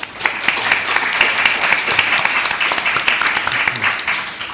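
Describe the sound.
An audience claps to welcome a moderator at a panel event, giving dense, steady applause that stays loud and even the whole time.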